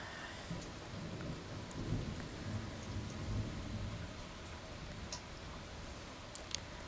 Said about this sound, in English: I sit and listen to the rain sometimes like this, and I wonder if God is just emptying the tears